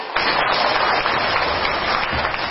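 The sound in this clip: Applause from the audience during a question session at a Buddhist teaching talk. The clapping is steady and dense, holding at an even level for over two seconds.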